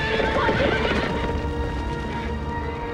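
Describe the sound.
Horses neighing and whinnying as they are released through opened doors. Loud, shrill calls come with clattering hooves and are strongest at the start before settling into a steady, busy din.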